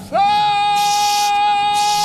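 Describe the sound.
A loud, sustained shout under a mass of ice swoops up at the start, then holds one high, steady pitch for about two seconds.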